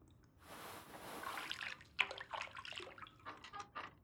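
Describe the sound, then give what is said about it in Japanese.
Soft water sloshing and dripping as a right foot is lifted out of hot bath water during foot care. A quiet swishing swell gives way to scattered drips and small splashes. “右足だけお湯から出していただけますか？”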